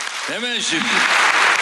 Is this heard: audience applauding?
yes